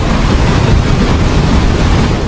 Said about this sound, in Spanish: los fuertes oleajes afectaron la caleta de pescadores.